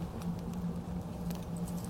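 Coins jangle as someone rummages through a bag, giving faint, scattered metallic clinks over a steady low hum.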